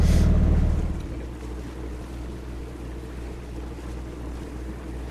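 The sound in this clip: Steady low engine drone of a motorboat heading out to sea through the Pellinge archipelago, mixed with wind and water noise; a louder rush opens the first second before the hum settles into an even, continuous level.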